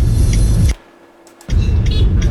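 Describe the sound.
Car traffic in a congested road jam makes a loud, steady low rumble of idling and crawling engines. It drops out abruptly for under a second, then resumes at the same level.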